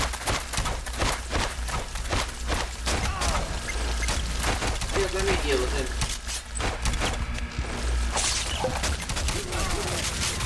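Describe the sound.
Gunfire in a video game, many sharp, irregular shots and bursts cracking one after another, with a voice heard at times between them.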